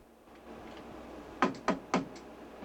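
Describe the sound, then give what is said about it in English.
Knocking on a cabin door: three crisp, evenly spaced raps, then a softer fourth, all fairly faint over a low steady background hiss. “Braden knocks on another cabin door.”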